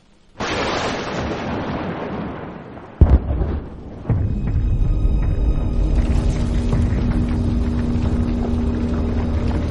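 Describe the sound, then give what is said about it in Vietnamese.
A terrifying explosion rumbling from inside a forest: a hissing wash gives way to a sudden heavy blast and a second hit, then a sustained, deep, loud rumble that keeps rolling on. “Và rồi một tiếng nổ kinh hồn lại vang lên từ bên trong khu rừng. Mặt đất rung chuyển làm cho một loạt những cây cao đổ xuống”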